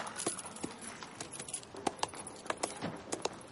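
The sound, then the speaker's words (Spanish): Horse hooves clip-clop as a captain on horseback turns his mount and rides off in a period drama, giving irregular sharp hoof strikes over a low rustling background. “El capitán vuelve grupas y se aleja.”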